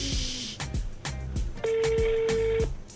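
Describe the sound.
An outgoing phone call's ringback tone sounds as one steady, mid-pitched ring lasting about a second, with rhythmic thumps and other sounds beneath it.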